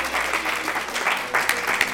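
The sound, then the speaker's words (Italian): An audience applauds with dense, brisk clapping that stays fairly steady and moderately loud for about two seconds. “fatemi un applauso!”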